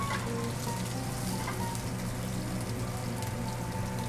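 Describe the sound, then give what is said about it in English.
Asparagus sears in smoking-hot olive oil, giving a steady, dense crackling sizzle that runs on without a break at an even, moderate level. “We got olive oil here, smoking hot. Yeah. I want color on the asparagus, so that's a good thing, right? Yeah. Here we go.”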